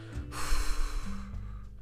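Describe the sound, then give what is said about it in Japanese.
A nasal inhale during an abdominal breathing exercise, with air drawn through the nose into the belly. It is a single soft, airy rush of breath, brief and faint, that swells and then tapers off. “息を吐き切ったら鼻から吸ってお腹にね鼻から吸ってお腹を膨らませます”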